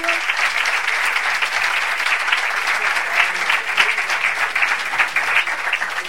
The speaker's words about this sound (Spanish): Este aplauso para ti.